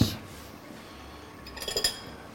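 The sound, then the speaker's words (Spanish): A spoon stirs food in a cooking pot: faint scraping over low, steady background noise, then a few light metallic clinks near the end. “Ahora removemos todo un poquito”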